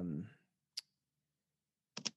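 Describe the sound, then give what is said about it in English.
Clicks come from a computer while someone types a search: one sharp click, a pause, then a quick pair of clicks. A voice speaks briefly at the start. “I'm gonna go out to YouTube right now and let's type in Alex Road.”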